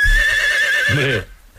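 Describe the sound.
A single loud horse whinny, played as an animal sound to guess in a game: a sustained high, quavering call that drops into lower, fluttering snorts before cutting to near silence.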